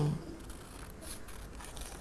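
Scissors cutting paper: a few soft, crisp snips spaced through an otherwise quiet stretch, faint throughout.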